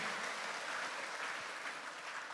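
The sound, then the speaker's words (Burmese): Steady applause from a church audience clapping their hands, a dense continuous wash of many claps that holds at a fairly even level with no voices. “လက်ခုပ်တီးလက်ဂုဏ်ပြုပေးရအောင်ဟာလေလုယာ”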